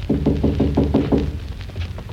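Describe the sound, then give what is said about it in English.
Knocking on a door in a laboratory: a quick, evenly spaced run of several firm raps, then quiet. “Where will I knock?”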